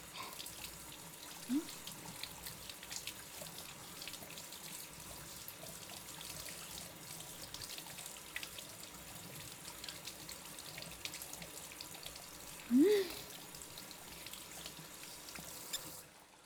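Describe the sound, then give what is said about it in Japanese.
Water runs from a tap while hands are rinsed, a faint, steady hissing flow throughout, broken by a couple of brief sharper sounds. “手を流させてもらいんして”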